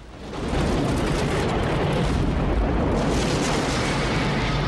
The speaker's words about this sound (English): The starboard second engine explodes into flames, then the others.